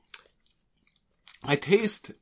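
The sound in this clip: Someone chews a snack made with peanut butter, coconut, molasses and cocoa. A few faint mouth clicks come first, then a louder stretch of wet, crunchy chewing up close.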